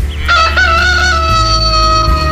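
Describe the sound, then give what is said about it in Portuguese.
A rooster crows once in a long, bright, harmonic call that holds steady for about two seconds over a low background hum. “O galo cantou.”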